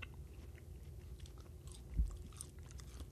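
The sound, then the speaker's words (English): Faint chewing of a meat stick snack like a Slim Jim that tastes of summer sausage: soft, continuous mouth sounds with a single louder bite or crunch partway through. “It's not bad. It's not bad at all. It's just like a Slim Jim. Tastes like summer sausage.”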